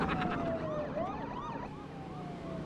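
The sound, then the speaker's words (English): Police car sirens crowding around a stopped car, several overlapping wailing tones sweeping up and down over a steady road rumble, without talk. “Driving away, Felix looks through the rear window at police cars crowding around Kane's car.”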